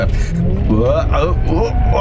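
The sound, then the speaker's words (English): A rented sports car's engine rumbles steadily as it drives through the tight Fairmont hairpin corner by a harbour, with a person talking continuously over the low, even drone. “Oh, the speed of this thing. I've rented a sports car for the day,”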